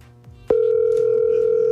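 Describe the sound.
Telephone line tone after dialing a call: a sharp click sets off a steady, loud, unbroken tone that holds at one pitch to the end, with faint thuds before it.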